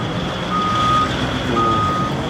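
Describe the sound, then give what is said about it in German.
Reversing beeps from a giant haul truck at a mine carrying out raw materials, a few long high-pitched tones sounding over a loud steady roar of engine and machinery. “Hier sehen wir jetzt die gewaltigen Lastwagen,”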